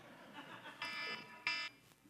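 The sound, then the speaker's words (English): A phone alarm goes off in faint, short electronic beeping tones, with two clearer bursts standing out against a quiet background. “I guess I did set that alarm after all.”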